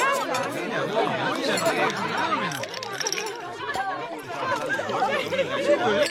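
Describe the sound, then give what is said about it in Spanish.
Guests at a dinner party chatter, with many overlapping voices talking at once in a lively, continuous babble at a moderate level. “Seguramente estos te parecieron sonidos de una cena cualquiera, pero si todos te sonaron familiares, hay algo que dejamos de escuchar.”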